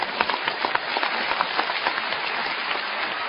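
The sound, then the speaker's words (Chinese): Clapping from an audience at a live stage performance forms a steady, fairly dense patter in which individual sharp claps stand out. It stays even in level for about three seconds. “值得鼓这个掌”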